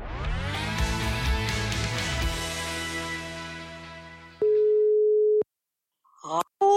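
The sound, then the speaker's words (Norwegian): A telephone ringback tone sounds while a call is placed to an old friend: a single steady mid-pitched tone lasting about a second after a fading musical chord, then a pause and a couple of brief electronic chirps. “Og nå så skal vi ringe min gamle venninne Hanne Marie.”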